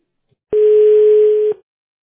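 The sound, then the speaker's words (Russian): A telephone call tone heard while a phone call is being placed: one steady, pure, mid-pitched beep about a second long, loud and clean, with silence before and after it. “Сейчас звоню.”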